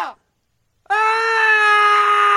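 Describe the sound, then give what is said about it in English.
A group of about thirty men screaming: a brief cry fades, silence follows, then a loud sustained scream holds a steady pitch to the end. “Like 30 guys walk into the room, start screaming, and then they just leave him.”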